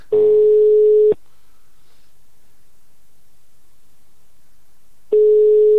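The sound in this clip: Ringback tone heard while placing a mobile phone call: a steady, mid-pitched beep lasting about a second, then roughly four seconds of near silence, then the same tone starting again at the end.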